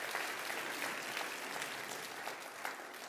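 A church audience applauds to welcome guests at Calvary, with dense, steady clapping from many hands at an even level throughout.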